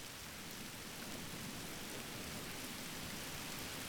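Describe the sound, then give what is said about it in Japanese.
Gentle, steady rain falling on the ground, heard as a soft, continuous, even hiss with no distinct individual drops standing out, staying low and unchanging throughout. “次は、しとしとと降る雨の音。”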